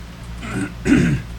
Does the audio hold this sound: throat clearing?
yes